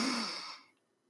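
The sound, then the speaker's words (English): A single deep breath taken during a guided relaxation exercise. It is a soft, airy rush that lasts under a second and fades out quickly, heard alone without any talk. “So deep breath in.”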